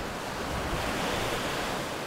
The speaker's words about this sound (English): Standing on the beach, facing the open ocean on the Nantucket shore, I could feel this energy as a wave curled over and crashed down.